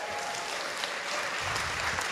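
An audience at a live radio show in Armory Square, Park Rapids, Minnesota, applauding in a dense, even wash of clapping that holds steady throughout.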